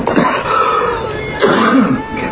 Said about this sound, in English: Coughing's good. It opens up the capillaries, you know.